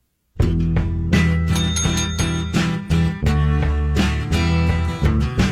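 A small handheld bell rung as a quiz buzzer: bright, loud metallic ringing repeated many times in quick bursts, continuing throughout with little pause.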